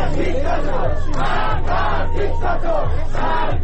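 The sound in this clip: Protesters at a mourning gathering in Iran chant slogans against the Islamic Republic and its supreme leader, many voices shouting together in loud, rhythmic, repeated phrases.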